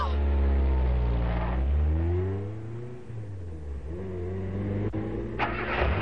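A car engine revs hard during a chase, a loud, throaty roar whose pitch dips and then climbs again as the driver works the throttle, with a sharp click near the end.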